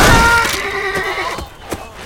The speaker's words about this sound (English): The man's companions fought their spooked horses to keep him from bolting.